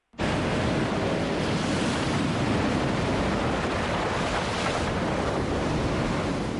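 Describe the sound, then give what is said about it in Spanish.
Rough ocean waves pound a coral reef, making a loud, continuous roar of surf mixed with wind. The noise stays dense and steady throughout, with no breaks and no voices. “El océano embravecido golpea los corales con fuerza.”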